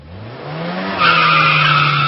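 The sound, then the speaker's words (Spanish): Tires screech under a car's sudden hard braking, a sustained squeal that grows louder and harsher about halfway through, with a low engine drone beneath. “¿Qué pasa con su cuerpo al escuchar un frenazo y usted está en una moto?”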